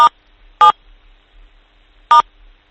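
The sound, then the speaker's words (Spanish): Touch-tone telephone keypad dialing as keys are pressed: three short, loud, clean beeps with uneven gaps, two close together at the start and a third after a longer pause, with no talk. “porque lo que está haciendo es apretar las teclas. Sí, a lo mejor tiene un, táctil de estos.”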